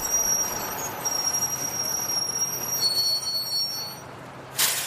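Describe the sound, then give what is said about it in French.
Steady rumble of trains at a crowded Paris railway station platform, with thin, high wheel squeals that drift in and out over the broad noise and a short burst of noise near the end. “Bon, me voilà à la gare de Lyon. Fin du voyage. Je suis sur le quai.”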